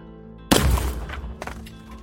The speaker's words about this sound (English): at point blank range, you fire your 45 into the rock, and you're very, very, very lucky the bullet doesn't ricochet. Instead, it's embedded deep into the rock.